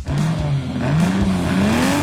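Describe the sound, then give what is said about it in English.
Race car engines rumble at side-by-side racing in Prince George, a continuous loud roar whose engine note climbs steadily as the cars accelerate. “Feel the engines rumble, smell the burning rubber, and take in the pulse-pounding action of side-by-side racing.”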